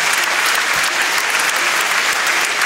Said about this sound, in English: Let's give them a big round of applause for a terrific debate